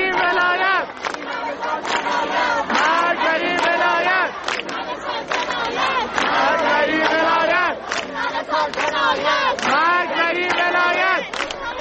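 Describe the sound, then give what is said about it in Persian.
A large crowd of students chants loudly at a protest gathering at Isfahan University of Technology, many voices shouting in rhythmic, repeated phrases, dense and continuous throughout. “صدای همه دانشجویان دانشگاه صنعتی اصفهان رو میتونیم بشنویم.”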